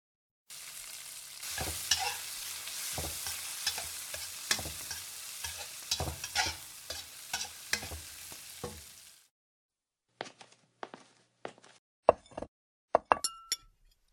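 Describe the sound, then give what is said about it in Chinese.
A meal being cooked in a kitchen: a loud, steady sizzle of frying with repeated stirring scrapes and knocks for about nine seconds, then a pause and a few sharp clinks of utensils or dishes. “好了，去给孩子们做饭吧，难得回来一次，得让孩子吃点好的。”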